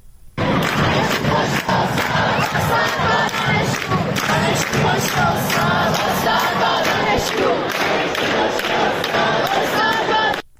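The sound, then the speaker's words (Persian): Students chant protest slogans at Shahid Beheshti University, a loud, continuous mass of voices shouting in rhythmic unison, with the crowd's roar filling the whole passage. “دانشجویان امروز موضوع اصلی اعتراض‌هاشون رو به اون اختصاص دادن و حتی در شعارهاشون هم این موضوع برجسته بوده، مثل صدای این شعار رو که میتونیم الان بشنویم در دانشگاه شهید بهشتی.”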